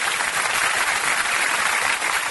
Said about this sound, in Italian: Beh, un applauso ci stava. Applausone per i nostri cugini primati.